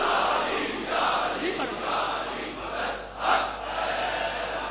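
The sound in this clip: Crowd roaring the Nara-e-Haidari slogan during a religious address: massed voices shouting together in a sustained, fairly faint roar that swells briefly near the end.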